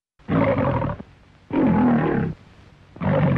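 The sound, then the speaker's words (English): A lion roars in three deep, rough, sustained bursts separated by brief pauses, with low breathy rumbling between them. The last roar is cut off. “Lions. You might see or hear them at the movies, but real-life lions are disappearing.”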